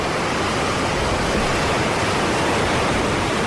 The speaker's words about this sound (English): The tide's coming in.